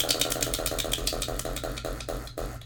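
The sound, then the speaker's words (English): A prize wheel spins with a rapid train of sharp, rattling clicks that gradually space out as it slows toward a stop. “So, let's spin this wheel. Spin it, girl.”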